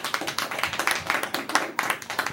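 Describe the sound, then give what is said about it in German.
Brief clapping in a West Virginia courtroom, a small group of hands giving quick, uneven claps for about two seconds. “Weiter so und Beifall.”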